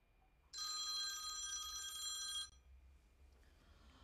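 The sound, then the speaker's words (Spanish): A telephone rings for an outgoing call: one steady, bright electronic bell tone lasting about two seconds and then stopping abruptly, fairly faint and alone, with no talk. “Voy a llamar a mi suegra, que hace mucho que no hablo con ella.”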